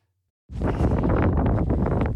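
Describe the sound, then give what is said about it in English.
Strong wind buffets the microphone on the South West Coast Path between Boscastle and Crackington Haven during a night relay run, starting abruptly after a short silence and roaring loudly and steadily with gusty fluctuations. “It was a bit windy, so you'll have to bear with the wind”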